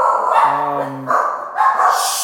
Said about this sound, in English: As my dog loses its mind